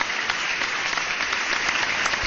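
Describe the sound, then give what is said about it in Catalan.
Audience applause for organ donors and donation staff: dense, steady clapping from many hands that fills the whole stretch at an even, strong level. “És a dir, aplaudiment fortíssim per a totes aquestes persones, els que donen els òrgans i els que fan que puguen tornar a tindre ús en una altra cosa, en una altra persona.”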